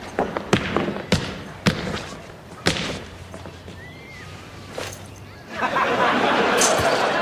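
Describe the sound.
A basketball bounces with a few dull, uneven thuds, then a broad, loud rushing noise rises and holds to the end.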